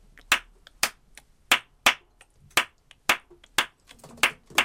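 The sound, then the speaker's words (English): Nine sharp hand claps beat out the clave, a two-measure Afro-Cuban rhythm, in a syncopated, unevenly spaced pattern, crisp and alone against near silence. “And so when I say the clave, I'm talking specifically about a two-measure rhythm, sounds like this.”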